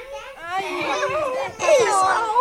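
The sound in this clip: Children romp noisily on a floor, knocking things about. High excited voices babble and shout continuously, loud throughout, with a sharper surge of squealing near the end.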